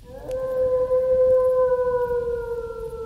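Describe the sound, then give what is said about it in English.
A wolf howling: one long steady note held for about three seconds and sagging slightly toward the end, clear above a faint rustling background. “Crikey, was that a wolf?”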